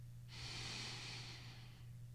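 A person takes one slow, audible breath: a soft, airy rush of air that swells, holds steady for over a second, then fades away, faint and alone without talking.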